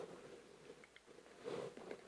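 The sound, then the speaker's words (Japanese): Someone drinks water, with soft wet gulps and mouth sounds over a low background hiss. A few faint swallows are clearest near the end. “はい、ちょっと水を飲みます。”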